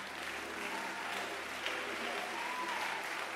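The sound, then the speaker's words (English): An audience claps hands steadily at a church service, with a dense, continuous patter of applause at an even level. “Yeah, clap for them.”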